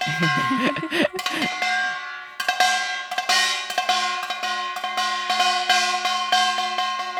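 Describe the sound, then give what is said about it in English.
Bright clanging strikes on a kengari, a small handheld metal gong. Many quick hits fall in an uneven rhythm, with a sustained metallic ringing carrying between them. “And there are another instrument called kengari, because it sounds like keng keng keng keng.”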